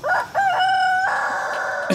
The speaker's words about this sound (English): We got chickens all up in the pecan tree here right now. Yeah, up in the roost, and they're just doing what chickens do.